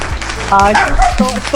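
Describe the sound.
Puppies bark in a few quick, high-pitched yips and yaps in short bursts, with people talking alongside.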